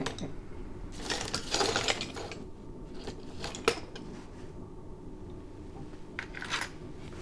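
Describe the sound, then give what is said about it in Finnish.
A screw being fastened and a lock being removed in a gun shop. Faint, scattered mechanical clicks, ratcheting and small metallic taps occur irregularly over a low, steady background. “kiinnitetään ruuvi tuohon noin. Ja sitten otetaan tuota niin lukko pois.”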